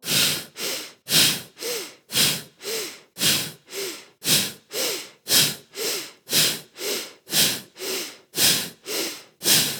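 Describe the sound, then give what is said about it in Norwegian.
Rapid, rhythmic deep breathing during a breathing exercise: many strong breaths in and out follow one another at an even pace, each a loud, airy rush with no talking. “Vi puster dypt inn.”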